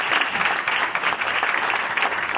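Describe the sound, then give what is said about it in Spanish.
Audience applause for a keyboard player introduced at a live band show: dense, steady clapping throughout, with no voices. “Jorge Moreno a los teclados, un aplauso para él”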